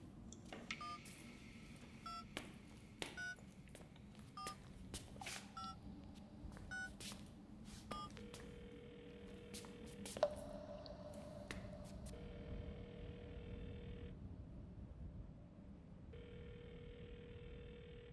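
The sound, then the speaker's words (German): A telephone being dialed for a call in an abandoned clinic building: a quick, uneven run of short key-press beeps, then longer steady tones with brief gaps, all fairly quiet. “Ich sollte jetzt Anton anrufen.”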